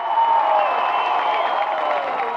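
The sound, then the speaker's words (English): A crowd at a political rally cheering and applauding, a loud, sustained roar of voices and clapping that holds steady throughout. “What a crowd here! What a crowd!”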